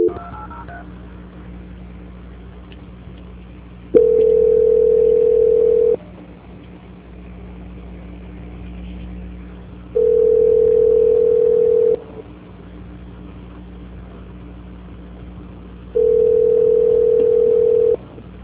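Telephone line tones sound during a call transfer: three long, steady beeps of about two seconds each, repeating at even intervals over a low, quiet hiss.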